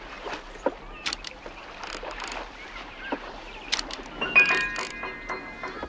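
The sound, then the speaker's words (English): A rowboat moves on a lake, giving faint, irregular wooden knocks and creaking oarlock squeaks that grow busier and louder toward the end. “Mulray and a slender blonde girl in a summer dress passing in their rowboat”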